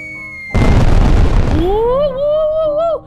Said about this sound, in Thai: บ้านเราก็มีนี่ไงแม่ ดอกไม้ไฟจุดโลด